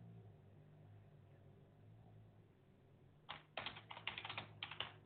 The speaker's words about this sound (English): I apologize. It's hard for me to talk and type. Bear with me on that.